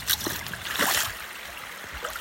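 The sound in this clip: Paddling a boat up a stream on the Isle of Lismore in western Scotland: a few splashing paddle strokes and trickles over a continuous wash of flowing water, with the strongest splashes early on.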